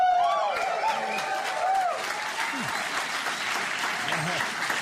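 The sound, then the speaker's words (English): Audience applause at a comedy-style talk: steady, sustained clapping throughout, with a voice speaking over it. “Sure could have used those 30 claps.”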